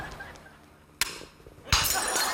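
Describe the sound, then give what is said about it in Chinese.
Two heirloom porcelain vases smash one after another: a sharp crash, then a louder shattering less than a second later, followed by a lingering clatter of shards. “哎呀我呀，我出去这么两天，你是把两个祖传的花瓶都打碎了？”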